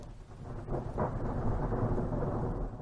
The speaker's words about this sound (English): You can listen to a coyote giving chase, thunderstorm at Big Bend,